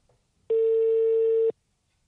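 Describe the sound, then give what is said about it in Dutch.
A ringback tone from an outgoing telephone call: one steady mid-pitched tone lasting about a second that starts and stops cleanly, with near silence before and after. “Dus die gaan we gewoon even bellen”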